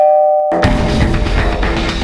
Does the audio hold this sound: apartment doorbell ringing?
yes